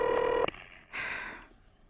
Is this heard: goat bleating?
no